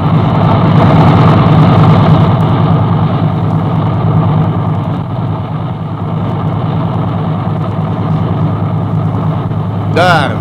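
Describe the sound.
A car engine runs steadily as the car drives on, making a constant low drone with a mid-range hum. The level stays fairly even throughout and dips slightly in the middle.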